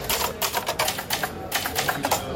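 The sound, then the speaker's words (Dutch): Typewriter keys clack in a quick, uneven run of many sharp strikes at a steady moderate loudness, with no voices. “Waarom nu op de typemachine?”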